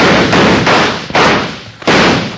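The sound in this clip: Gunshots in an old-time radio western drama: several loud, booming shots in quick succession, each cracking sharply and ringing into the next.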